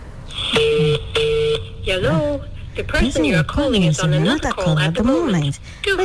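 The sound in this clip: Two short, steady beep tones as a telephone number is dialed, followed by a voice speaking over the phone line.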